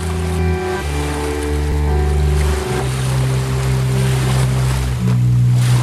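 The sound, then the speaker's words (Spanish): A river's flowing current makes a loud, steady rushing roar with a wind-like hiss that runs unbroken throughout. “correntada, correntada. Trae los sonidos del río hasta vos.”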